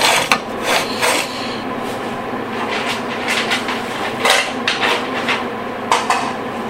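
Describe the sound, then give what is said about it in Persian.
Kitchenware clatters as a pot is taken out and plates and a board are set down. There are several sharp clanks and knocks with softer scraping between them, and no talk. “به این منظور قابلمه رو در میارم، بشقابا رو میذارم بیرون، تخته،”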